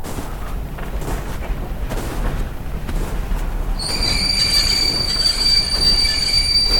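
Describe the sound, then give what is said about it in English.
A train screeching to a halt in the distance: a low rolling rumble of wheels, then piercing high-pitched squealing tones from the wheels that begin partway through and grow louder until the end. “A train screeches to a halt in the distance.”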